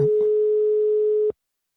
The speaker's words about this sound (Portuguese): Ó, tá chamando.